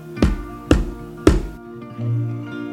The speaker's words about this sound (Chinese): 此时，妈妈敲敲才子的门